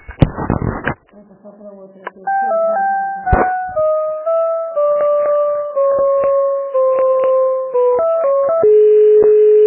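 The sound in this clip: Electronic phone tones play while a call is transferred: after a brief noisy burst, a steady sequence of pitched tones steps through a simple melody, with short clicks along the way.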